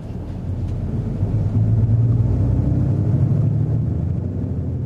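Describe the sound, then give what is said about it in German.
A bus engine rumbles steadily on a ride from Krasnoyarsk railway station to Zelenogorsk in Russia: a continuous, even low drone with no voices. “Vom Krasnojarsker Bahnhof fahren wir mit dem Bus nach Zelenogorsk.”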